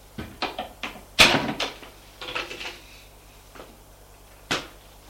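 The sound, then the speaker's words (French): A cupboard door is opened by someone starting to tidy, giving a series of faint clicks and knocks with one louder bang early on and a last knock near the end. “Là, dans le placard, la mère va ouvrir le placard.”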